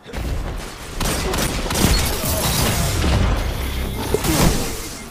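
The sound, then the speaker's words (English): Fusion rifle fire in a video game, a dense run of rapid shots and heavy booms that keeps up loudly across the whole stretch with little pause. “That guy is on a, uh, is on a fusion rifle killing spree.”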